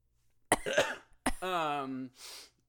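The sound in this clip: Coughing and throat clearing: a sharp cough, then a second burst that runs into a voiced, groaning clear of the throat, ending with a breathy exhale. The bursts stand out against near silence.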